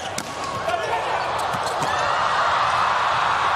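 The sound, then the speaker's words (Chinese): A table tennis serve down the line gives a few sharp, light ticks of the ball bouncing over a steady background hiss. “李永贞发球，发直线。”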